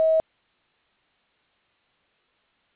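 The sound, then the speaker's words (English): A single short, loud voicemail beep marks the start of message recording: one steady mid-pitched tone that cuts off abruptly, followed by silence. “Please leave your message at the tone.”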